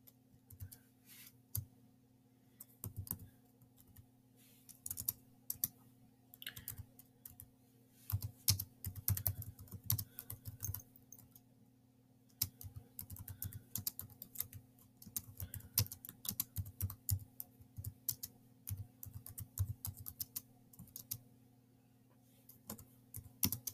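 Typing on a computer keyboard: many faint, quick keystroke clicks in irregular bursts and pauses over a steady low hum, lasting throughout.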